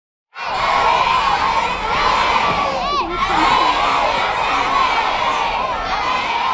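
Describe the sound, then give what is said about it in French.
Children shouting and cheering at École Vanier, a school in St. John's, Newfoundland: a dense, loud roar of high young voices that breaks in abruptly and carries on almost unbroken, dipping only briefly partway through. “entendez-vous les voix des enfants de l'école Vanier à Saint-Jean-Terre-Neuve?”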